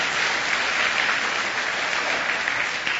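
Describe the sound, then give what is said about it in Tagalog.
Steady, dense applause from an audience clapping in praise of Jesus during a sermon, even and continuous throughout. “Pwede bang palakpakan natin ang Panginoong Jesus for dying for us?”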